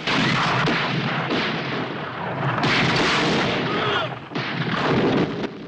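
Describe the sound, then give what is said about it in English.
Gunfire in a film battle scene as Allied soldiers on a beach shoot at German infantry abseiling down a cliff on ropes, heard as dense, loud, continuous volleys of shots and booms. “German infantry start abseiling down the cliff on ropes, and the Allies open fire on them.”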